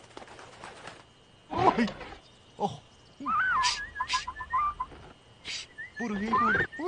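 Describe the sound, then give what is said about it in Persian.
A pestering bird squawks and warbles in several short, chattering bursts of wavering high calls, separated by brief quiet gaps. “برو دیگه پرنده ابله وای برو دیگه الان لباس درختیمو خراب میکنی برو دیگه چه پرنده ای خیلی سمجه”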